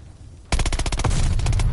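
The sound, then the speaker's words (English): Loud automatic gunfire from a video game bursts in abruptly after a brief quiet, with many rapid shots in a dense, continuous barrage. “I almost shot you in the face.”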